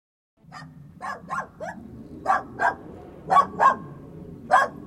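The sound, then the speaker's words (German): A police dog barks repeatedly in short, sharp, mid-pitched barks, some in quick pairs, loud and without talk. “Könnte vielleicht einer Ihrer Kollegen den Hund abstellen? Das Gebell geht mir auf den Geist.”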